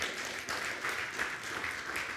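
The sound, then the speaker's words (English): Applause from a church audience, a dense, steady patter of many hands clapping throughout, fairly faint and even in level. “Go ahead and clap for him. He's worthy.”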